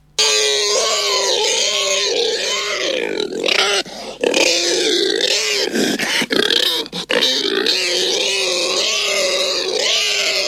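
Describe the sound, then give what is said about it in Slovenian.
Loud, nearly continuous grunting and squealing from a pig in a city setting, the calls sliding up and down in pitch with a few short breaks between bursts. “A je to pujs? Uh, ja, zdaj pa dejansko je.”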